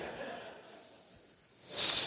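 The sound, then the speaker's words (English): A snake's hiss swells in near the end, a loud, breathy, high-pitched rush of air that rises sharply after a quieter, noisy stretch. “Snakes. Ah, snakes.”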